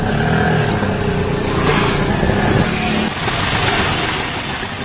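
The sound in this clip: An auto rickshaw engine rumbles near a station after midnight with a loud, continuous, rattling drone that holds steady for several seconds and eases slightly at the end.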